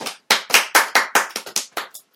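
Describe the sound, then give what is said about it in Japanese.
Thin, sparse hand clapping from what sounds like a lone person: a short run of sharp, evenly spaced claps at a moderate pace that fades slightly toward the end, with no voices. “拍手もまた 人気ないんだ”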